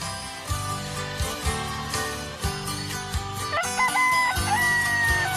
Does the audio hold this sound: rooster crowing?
yes

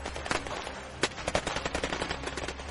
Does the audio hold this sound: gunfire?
yes

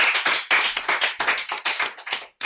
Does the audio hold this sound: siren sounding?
no

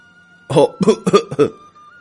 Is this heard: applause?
no

